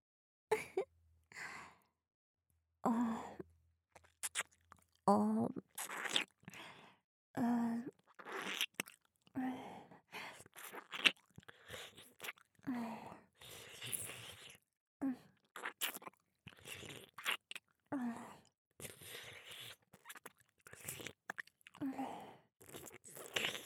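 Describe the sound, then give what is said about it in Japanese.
Intimate ASMR chewing and biting on an ear: many short, wet, crunchy bites and mouth sounds come in uneven bursts, mixed with soft sighs and breathy gasps, all close and quiet. “息を吹きかけただけでピクピクしちゃって敏感なお耳ね。食べ応えがあるわ。”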